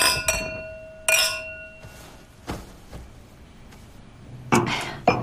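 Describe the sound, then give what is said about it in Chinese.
Glasses clink in a toast: a few bright, ringing chimes early on, followed by softer knocks and a louder clatter near the end, with no talk. “来，干杯！”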